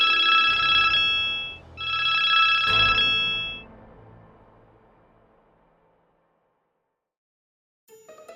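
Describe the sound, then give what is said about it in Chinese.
A home telephone rings in two long electronic bursts with a short gap between them. The ringing then fades away, and a brief faint sound follows near the end. “是谁打电话来？ 平常家里电话很少会响”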